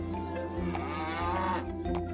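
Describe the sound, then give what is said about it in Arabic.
A cow at a livestock market lets out a low, drawn-out moo that holds steady and fairly loud throughout, with no voices. “ثم ذهبنا إلى سوق المواشي، وهناك اشترى جحا بقرة كبيرة.”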